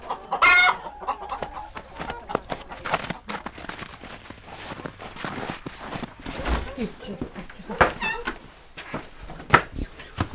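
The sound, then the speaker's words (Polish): Hens clucking in short, repeated calls that come and go throughout, pecking at food tossed to them during a holiday custom, with people talking over the flock. “Kury bardzo chętnie tą kutię w powietrzu dziobały. No to kurki, nieście jajeczka na święto”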